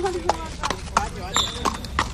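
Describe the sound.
Hooves clop from horses at a stud farm as they move about. Several irregular, distinct footfalls sound under a person talking.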